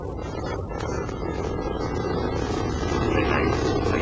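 Roaring rumble of a space shuttle lift-off sound effect, a dense, loud engine roar that holds steady throughout and swells slightly toward the end.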